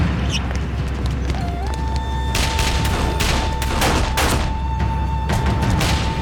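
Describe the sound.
Gunfire during an ambush firefight: many sharp shots and bursts crack out irregularly over constant rumbling background noise, with no talk.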